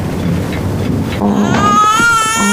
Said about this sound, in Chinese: 来，不哭不哭啊，妈妈抱。